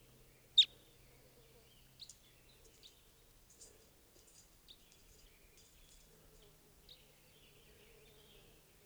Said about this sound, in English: It's 524 and there's some wild type 2 birds here.